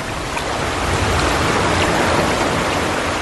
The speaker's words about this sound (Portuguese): A água veio correndo da direção de Edom e cobriu o chão.